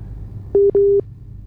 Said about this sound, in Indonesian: Mohon maaf sekali ya pendengar kalau misalnya ada terputus seperti ini.